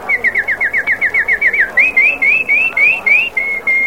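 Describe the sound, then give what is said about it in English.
A bird sings after a beggar whistles to it. A quick run of many short, clear, downward-slurred whistled notes shifts into a slightly higher series of rising chirps, loud and steady with no talk. “The beggar whistles to the bird, and it begins to sing.”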